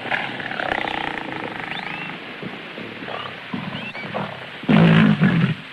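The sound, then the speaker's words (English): A lioness roars in the jungle: one short, loud, low growling roar bursts out near the end over a steady bed of background noise with faint high chirps. “A lioness eyes him.”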